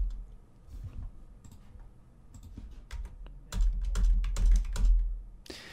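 Computer keyboard typing while a link is posted into a video chat: rapid, uneven clicks and taps, light at first and then a denser, louder burst of keystrokes in the second half, with no voices.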